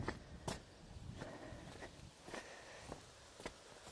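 Footsteps going down the side of a house into a side garden: a steady, evenly spaced run of soft steps over a faint constant hiss, with no voices.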